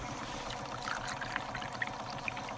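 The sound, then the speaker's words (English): Pond water is poured from a bucket into a pump, making a faint, steady trickling stream broken by a few small plopping drips. “pours the water into a pump”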